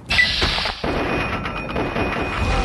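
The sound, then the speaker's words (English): A hand grenade explodes in a shooter video game. One sudden blast comes near the start, breaks off briefly, then gives way to a rumbling, noisy tail that lasts to the end. “This fucker threw a hand grenade at me.”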